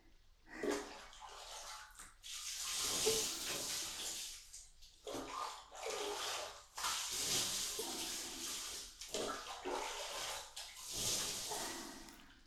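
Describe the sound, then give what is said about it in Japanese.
Water rinsing something off, a loud rushing spray that comes in several uneven surges with brief lulls between them. “洗い流していきましょう。”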